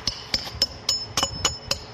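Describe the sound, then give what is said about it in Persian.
A small hammer taps traditional tiles in a tile workshop at the Great Mosque of Herat, making sharp, bright strikes at an even, regular rhythm. “در کارگاه کاشی‌سازی در مسجد جامع بزرگ هرات با چکش کوچک بر کاشی سنتی بارامی میکوبد.”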